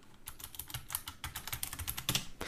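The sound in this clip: Someone types a message on a computer keyboard: many quick, light key clicks in an irregular, uneven rhythm, fairly faint and with no voices.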